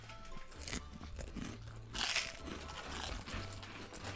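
Crisp crunching as someone bites into and chews Max Nashville Hot Style Chicharrones, a fairly faint run of crackly, brittle snaps and grinding chews that continues throughout, with no talk over it.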